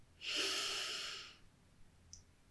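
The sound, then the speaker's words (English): A single slow inhale through the nose during a guided self-love meditation: one soft, steady breathy hiss lasting just over a second, followed by near silence. “We're going to inhale, right? Here we go.”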